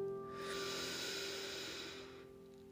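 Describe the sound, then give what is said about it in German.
A slow, deep inhalation during a guided morning meditation, heard as a soft, airy hiss lasting about two seconds over a quiet, steady tonal background. “Nimm noch einen tiefen Atemzug.”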